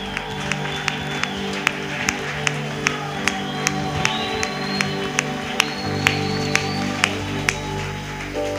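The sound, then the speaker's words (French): Church audience clapping in a steady rhythm to praise the Lord during a Sunday worship service, the sharp claps repeating evenly over sustained instrumental tones without a break. “Est-ce qu'on peut acclamer mieux le Seigneur? Merci parce qu'on a acclamé la chorale, canot vocal. Mais j'aimerais qu'on acclame le Seigneur.”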